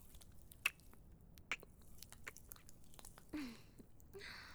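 Hair being washed and lathered makes soft, wet squishing and squelching sounds with a few brighter pops and gentle crackles, quiet and close throughout.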